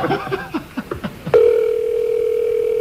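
A telephone dial tone sounds while a caller rings someone. A steady single-pitched tone starts partway through and holds unbroken to the end, after a few brief sounds.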